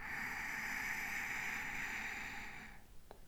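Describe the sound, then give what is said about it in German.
Ujjayi breathing, an inhale drawn through a constricted throat with the mouth closed, makes a steady, airy hiss that holds for nearly three seconds before stopping. “Achte auf die Enge im Kehlkopf hinten und atme ein. Ujjayi.”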